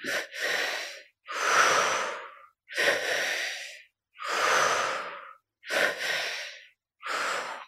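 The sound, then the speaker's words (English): Deep, paced breaths drawn in through the belly and up into the chest, then released out through the mouth. Several loud, breathy rushes follow one another in a steady, repeating rhythm, separated by short silences. “So we're breathing the energy into the belly first, up into the chest, and out through the mouth. So the pacing is a little bit like this.”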